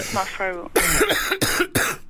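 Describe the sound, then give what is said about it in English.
A few deliberate coughs from someone with a cold, harsh and throaty, following a short voiced sound. The coughs come as separate loud bursts in quick succession. “Can you just do a bit of a cough for us now? Right, I'm going to do a bit of my one now.”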